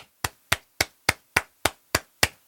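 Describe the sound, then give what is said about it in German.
Eight sharp clicks mark eighth notes at the piece's tempo, sounding alone as an even, metronome-like pulse of about three and a half per second. Each click is a crisp percussive tick that decays quickly. “Die Achtel klingen bei diesem Tempo so.”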